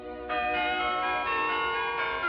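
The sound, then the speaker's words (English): Golden wedding bells ring out for a wedding day, a sustained, shimmering metallic peal with several overlapping strikes that keep the ringing steady and loud throughout. “The golden bells ring out on Cinderella's wedding day.”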